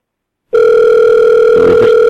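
A telephone line tone sounds after a call is hung up. It starts abruptly from silence and holds as one loud, steady, unbroken electronic hum.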